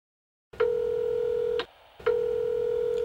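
Telephone line tones on a call to a directory information service: two long, steady buzzing tones, each about a second, with a short pause between them. No talking.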